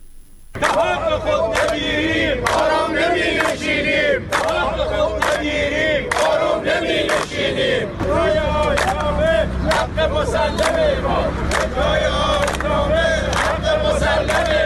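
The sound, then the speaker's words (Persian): A crowd of retired telecom workers chanting loudly and rhythmically at a protest, with many voices shouting slogans together in repeated bursts throughout. “این صدای شماری از بازنشستگان شرکت مخابرات است که میگویند تا حق خود را نگیرند آرام نمی نشینند.”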